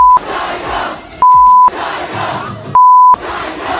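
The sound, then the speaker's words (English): Concert crowd chanting loudly and steadily at a show in New York, the rhythmic mass of voices cut by steady censor beeps a few times. “He had a show in New York the other night, and it looks like his fans were very involved.”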